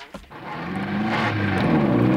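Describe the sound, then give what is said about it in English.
A car engine drives up to a bridge, a low motor hum that swells after a brief click at the start and holds steady and fairly loud to the end. “Wait, car's reached the bridge now”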